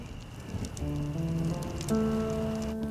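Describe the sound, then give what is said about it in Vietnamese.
An old shirt burning in a fire gives faint, irregular crackling and popping, with steady tones sounding alongside from the middle onward. “Anh Chi Hoan, em đốt cái gì thế? Em đốt chiếc áo cũ anh ạ.”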